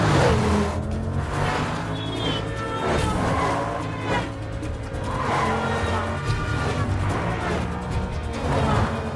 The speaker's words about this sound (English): He narrowly misses a major collision at a junction and ends up driving down the pavement.